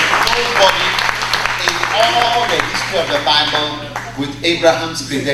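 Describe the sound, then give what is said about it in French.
A church audience applauds and cheers loudly in a dense, steady wash of clapping mixed with shouting voices that lasts the whole clip and grows slightly more uneven toward the end. “Pourquoi pas acclamer fort pour Abraham?”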